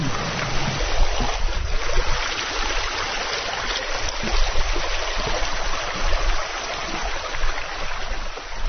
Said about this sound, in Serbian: Čuješ kako reka, života? Nije loša voda.